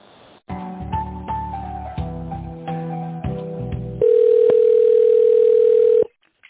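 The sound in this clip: Telephone line tones sound while a business call is being transferred. A stepping sequence of electronic notes plays for several seconds, then a single steady tone holds before cutting off abruptly.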